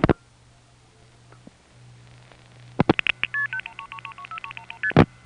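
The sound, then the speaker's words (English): Touch-tone dialing of a number on a phone line: a few sharp clicks, then a rapid string of short, clear dual-pitched beeps, with a faint steady low hum throughout. “which picks up a phone line and dials 829 on a Bellhaven line or 110 on a Greenville line.”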